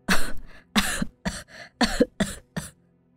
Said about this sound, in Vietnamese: Nói rồi bà lại ôm ngực ho lên rũ rượi.